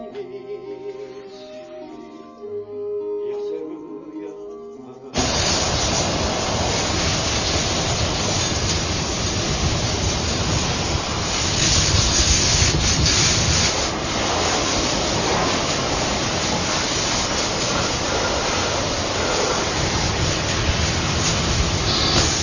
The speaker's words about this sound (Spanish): deja la manguera de la arenadora